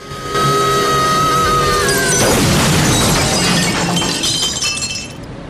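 A window shatters as a body crashes through it, giving a loud, sustained burst of breaking glass. A sharp crash is followed by seconds of bright, jangling shards that slowly thin out.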